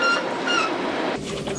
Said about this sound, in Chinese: 在内燃机车的牵引下，列车驶离格尔木车站。